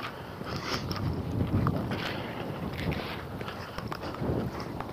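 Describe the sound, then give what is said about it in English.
Wind blows into a parka hood outdoors, a continuous rough, low rumbling buffet with gusts that swell and ease, and no voices. “It still lets wind in through the collar and in through the sleeves, but the big hole is where the hood faces forward and the wind blows in it.”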